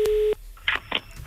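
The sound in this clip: A telephone busy tone on a call to a home line, heard as one steady, low-pitched beep lasting about a third of a second, followed by faint line noise.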